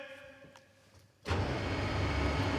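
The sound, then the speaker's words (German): A motorised concert stage being raised: a quiet hum gives way abruptly to a loud, steady mechanical rumble that holds evenly as the lift keeps moving. “fährt die Bühne hoch”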